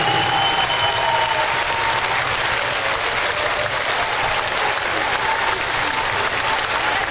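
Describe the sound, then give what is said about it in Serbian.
A folk music concert audience applauds a harpist with steady, loud clapping that fills the whole stretch without a break. “Mogu da vas zamolim za jedan ogroman aplauz za našu dragu, lepu Irinu Pejovsku na harfi.”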